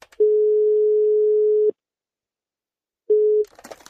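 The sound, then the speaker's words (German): A telephone ringing tone plays over speakerphone during a call to an IT support line: a steady low tone sounds for about a second and a half, pauses, then starts again and is cut short as a voice answers. “Ich rufe mal an und mache auf Lautsprecher.”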